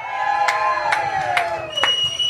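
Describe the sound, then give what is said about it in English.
Crowd at the Minnesota State Fair shouting and cheering on cue on a 90-degree day, a few loud bursts of yelling rising over a steady, dense din of many voices. “Hey, can you guys shout when I say Minnesota State Fair?”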